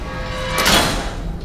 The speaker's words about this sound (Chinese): 牢门咣当地关上，把他们彻底隔在明暗两面。